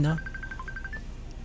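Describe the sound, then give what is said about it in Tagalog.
A phone ringtone sounds for an incoming call: repeated short, high electronic beeps, faint and steady, briefly overlapped by a man's voice at the start. “may tumatawag, so inano natin, no? Decline na natin. Huwag muna tumawag.”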